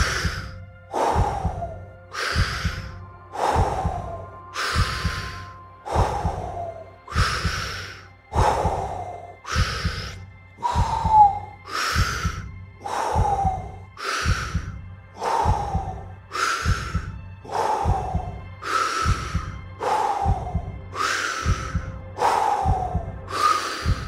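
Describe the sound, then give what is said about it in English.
Deep breathing in and out in a steady, even rhythm, with loud airy breaths repeating roughly every second and a half throughout, with no talking. “You keep doing, you keep breathing in deepest way. Maintain the rhythm. Let's go. Breath in, breath out.”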